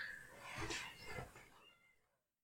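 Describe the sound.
A cat meowing, a faint drawn-out meow with a couple of swells that fade away, alone with no talking.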